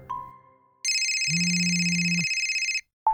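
Telephone ringing after a call is placed: a short beep, then a steady pulsing ring tone that mixes a low buzz with a higher bright tone for about two seconds, then a brief two-note tone at the end.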